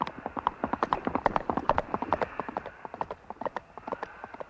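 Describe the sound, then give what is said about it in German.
Hooves clatter as horses set free from a paddock gallop away. The rapid, rhythmic clip-clop of many hooves stays loud and steady, easing slightly toward the end. “dann ließ er die Pferde frei. Lauft, gute Pferdchen! Lauft!”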